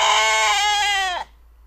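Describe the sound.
A single sustained sheep bleat, loud and quavering with a steady pitch, holds for just over a second before cutting off abruptly into silence.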